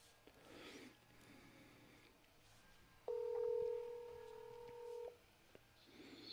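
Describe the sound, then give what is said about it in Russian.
Telephone number being dialed for a call: a steady, clean electronic two-pitch tone holds for about two seconds against a very quiet background. “Так, Мендору звоним.”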